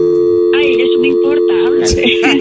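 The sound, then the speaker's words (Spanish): A telephone line tone while a call is being placed, a steady electronic hum that runs throughout beneath loud, continuous talk. “Ok, ahorita la vamos a marcar.”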